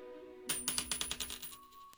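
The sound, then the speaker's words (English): A coin is flipped and lands with a rapid run of bright metallic clinks as it bounces and settles. The ringing fades away alone. “Heads yes, tails no. All right, here we go.”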